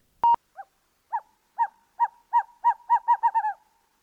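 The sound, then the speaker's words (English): Owl hooting: a sharp click, then a series of mid-pitched hoots that begin widely spaced and speed up into a rapid run of about a dozen calls, with no other sounds. “If you guessed owl, good job. You were right.”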